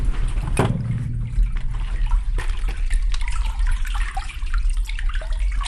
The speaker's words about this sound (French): Ça, c'est l'écoulement de l'eau dans le tube qui sert à irriguer les terres de Faja.